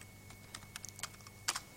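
Soft keystrokes on a computer keyboard while typing code, a handful of light clicks at uneven intervals, faint and with no talk.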